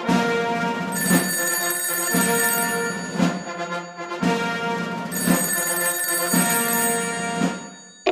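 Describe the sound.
A telephone bell rings in bright, metallic trills with ringing high overtones. Many rings repeat in a steady pattern, loud and alone with no voices.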